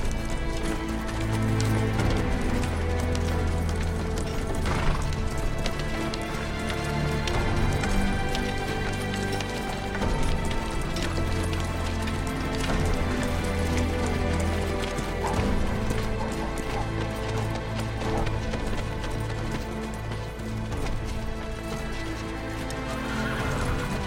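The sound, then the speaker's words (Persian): Hooves of horses carrying a woman rider and several soldiers through a gate, a continuous loud clip-clop of many hoofbeats with a horse whinnying over a dense, rumbling background. “زن اسب سواری با چند نظامی همراهش از دروازه وارد پنسا میشه.”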